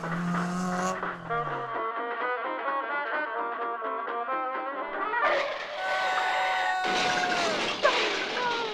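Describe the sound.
Cars roaring at a drag race, a continuous loud engine drone with harmonic whine throughout, briefly rising in pitch about midway and then holding a steady, strained roar to the end.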